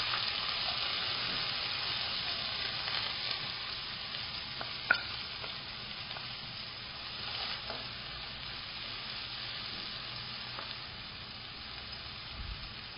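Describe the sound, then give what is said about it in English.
Chopped onion sizzles as it fries with fenugreek seeds for a curry, a steady bright hiss of hot oil running throughout, with faint stirring scrapes and one sharp clink about midway. “And add some fenugreek seeds. Do not add lot of this as this can make your curry bitter. Add chopped onion.”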